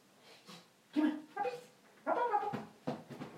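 Puppies whimper and yip in a series of short, high, whiny bursts, some overlapping and rising in loudness toward the end.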